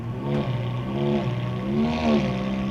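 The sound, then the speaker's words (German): Engine roar from three red sports cars with wide tyres rounding a corner, a steady harmonic drone that swells and slides in pitch as they come through. “Drei rote Sportwagen hintereinander. Flache Flitzer mit breiten Reifen.”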